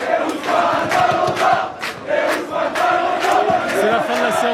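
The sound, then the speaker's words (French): Football supporters chant in a narrow street in Paris's 14th arrondissement, a dense crowd roaring in rhythmic waves with brief dips between loud, sustained phrases. “Entendez le chant des supporters de cette petite rue Raymond Losserand dans le 14e arrondissement. On est comme au stade.”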